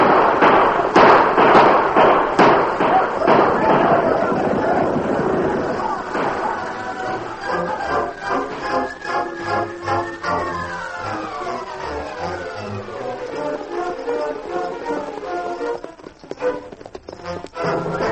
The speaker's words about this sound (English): Hey, cattle are starting to stampede. You better get out of the way quick.